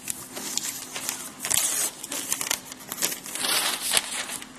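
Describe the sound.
Wrapping paper crinkles and rustles as a gift is unwrapped, a dense, loud run of crackling and crumpling with brief pauses and a few tearing bursts.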